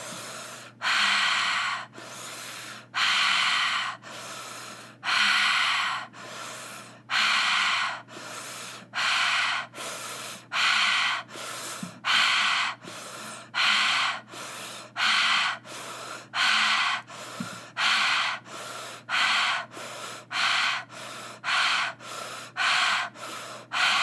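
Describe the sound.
Fast breathing: loud, rapid, rasping breaths in and out, one after another. The rhythm tightens and quickens toward the end, with no voices.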